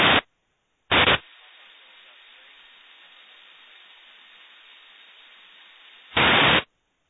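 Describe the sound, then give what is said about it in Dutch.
Static on an empty radio carrier signal: a soft, steady hiss broken by three loud bursts of noise, one at the start, one shortly after and one near the end. “Gehoord, een leeg signaal”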